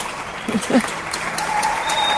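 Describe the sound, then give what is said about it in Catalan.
Scattered applause from neighbours on balconies across from a hospital, faint and diffuse, with a thin steady tone running through the second half. “I a veure si duren o no duren encara aquests aplaudiments. Sentim-los perquè ara s'estan animant,”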